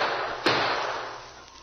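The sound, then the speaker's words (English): A single gunshot in a radio drama: one sharp crack that cuts through a steady hiss and leaves a fading tail. “Shoot a couple of times more.”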